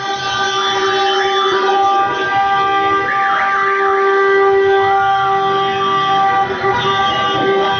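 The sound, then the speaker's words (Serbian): Car horns and siren-like tones blare at a street celebration in central Belgrade after a Serbian football victory, loud and continuous, with several overlapping pitches wavering up and down. “U centru Beograda su se već posle posljednjeg sudijskog zvižduka začule petarde i sirene automobila.”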